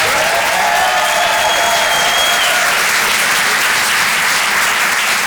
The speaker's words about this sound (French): Faites du bruit, s'il vous plaît, pour Vincent Serroussi.